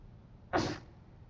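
A single sneeze from someone at a religious lesson on Islamic jurisprudence bursts out as one short, breathy blast, loud against the quiet and followed by no talk.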